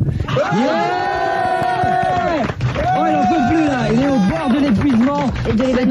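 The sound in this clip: A concert crowd gives a standing ovation at the end of a show, cheering and chanting loudly together. Sustained, wavering sung shouts from many voices carry on almost without a break, and the pitch rises and dips in melodic waves.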